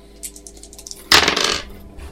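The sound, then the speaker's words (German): Dice rolled for a plant-lore skill check in a tabletop role-playing game give a few light clicks, then a bright clattering burst of about half a second that fades into quieter rattling. “Ja, du kannst auch Pflanzenkunde würfeln.”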